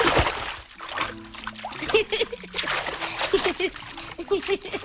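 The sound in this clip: Water poured and splashed while washing a child, a continuous trickling and sloshing under a person speaking.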